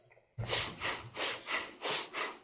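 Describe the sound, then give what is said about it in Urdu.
Forceful rhythmic breathing for Sufi dhikr, breath pushed in and out through the nose in about six loud, even, hissing pulses after a quiet start. “یوں سانس اندر لینا ہے پھر باہر نکالنا ہے، اللہ ہو اللہ ہو”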